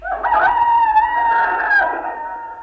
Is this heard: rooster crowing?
yes

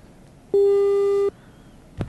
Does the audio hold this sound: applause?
no

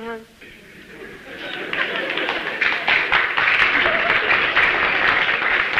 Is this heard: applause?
yes

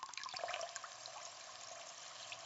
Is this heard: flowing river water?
yes

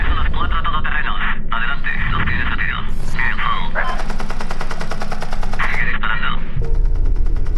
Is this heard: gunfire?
yes

